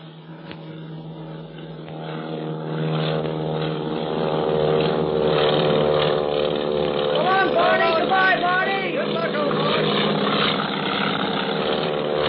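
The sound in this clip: Propeller airplane taking off and banking overhead, a steady droning engine rich in layered harmonics that swells early on and then holds loud and continuous.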